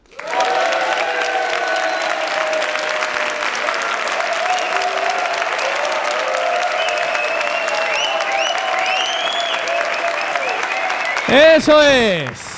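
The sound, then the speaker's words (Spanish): Sustained applause from a live audience at a comedy talk show held in a theatre hall: dense, steady clapping throughout, with a brief loud shout rising near the end. “Hoy somos aquí 3.756 cofrades de la cadena SER que suenan así.”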